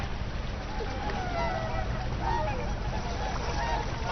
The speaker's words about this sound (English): The swans have been using this sheltered bay as a winter refuge for many generations.